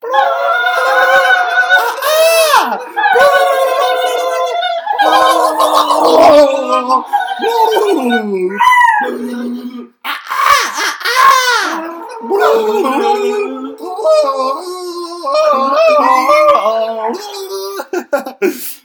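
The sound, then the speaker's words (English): People imitating turkey gobbling in an ASMR style: a continuous run of warbling, wavering vocal gobbles that rise and dip, voiced close and loud, with brief pauses between bursts. “All right, we're going to start turkey gobbling ASMR style in 3, 2, 1.”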